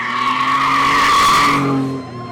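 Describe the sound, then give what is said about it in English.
Tires squealing as a pickup truck burns out on a street: a loud, sustained screech over a roaring engine that swells, then fades after about two seconds. “They cheered when passing cars honked and jumped back from the curb when a gaggle of teens in a pickup truck burned out down the block.”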